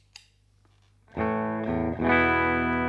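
Clean electric guitar tone: a faint click, then two loud strummed chords, the second about a second after the first, each ringing out with a bright, sustained sound and no voices.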